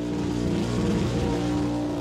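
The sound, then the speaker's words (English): A car doing a tyre-smoking burnout on a burnout pad gives a loud, continuous engine roar with a steady droning tone that holds without a break. “we pay our respects to burnout masters past, present and emerging. Breathe in that tyre smoke.”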